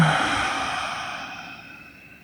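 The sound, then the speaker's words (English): A deep breath slowly released as one long, airy exhale that gradually fades away, heard alone without talk. “Deep breath in. And release.”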